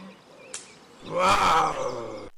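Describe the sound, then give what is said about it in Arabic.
A forest lion passes by with one loud, rough, growling roar that swells and then fades, after a brief sharp click. There is a quiet background beforehand. “وفي هذه الأثناء مر بهم أسد الغابة.”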